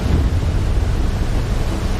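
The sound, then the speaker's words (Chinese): Huge ocean waves whipped up by a level-12 storm at sea, with a platform pitching in the swell: a loud, unbroken roar of surging water and wind noise that stays steady throughout, with no voices. “12级风暴已经足够掀起滔天巨浪，平台在风浪中上下起伏”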